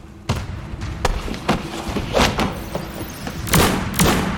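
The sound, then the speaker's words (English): Gunshots in a video game fight, with characters firing guns at close quarters; a series of sharp, loud cracks and thumps at irregular intervals, some in quick pairs, over a low background. “Thane double shots, but he disappears. Everyone's pointing guns everywhere.”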